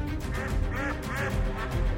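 Duck quacking from the hotel's guard ducks: a few nasal, raspy quacks rising out of a dense, noisy background, spread across two seconds with no talk.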